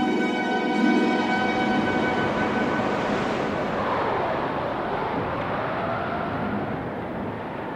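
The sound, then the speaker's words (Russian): Hurricane wind and surf at sea make a continuous, dense roar with a faint whistling layer on top. It holds steady throughout and eases slightly toward the end, with no voices. “Около 8 часов утра ветер еще усилился. Это был ураган.”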